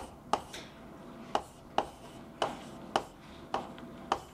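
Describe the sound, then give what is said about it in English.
Equations are written down during a physics lecture, heard as seven quiet, sharp taps with faint scratches, spaced fairly regularly. “right, so I'm only writing down the terms that will give me quadratic bits.”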